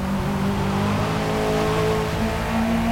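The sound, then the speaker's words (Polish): Aggressive car engine revving in a racing video game: a loud, sustained engine drone with layered harmonic tones that shift slightly in pitch throughout, with no voices. “Na dźwięk silnika, który stał się zdecydowanie bardziej agresywny”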